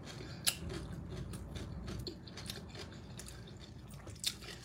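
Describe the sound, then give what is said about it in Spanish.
Faint chewing of food while eating, soft mouth sounds broken by a few sharper crunchy bites, with no talk. “Chicas, se está comiendo. Qué bueno, mi amor.”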